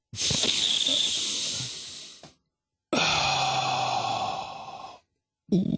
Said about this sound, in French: Et j'actionne l'ouverture de ma bouteille d'oxy-schnapps. Le gaz qui rend heureux.